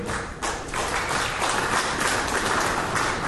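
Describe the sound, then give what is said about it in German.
Audience clapping at a presentation about long trucks, a dense, even patter of many hands that stays steady for the whole stretch. “ich zähle die Einzelnen ab, die jetzt geklatscht haben, weil die haben jetzt schon bestellt.”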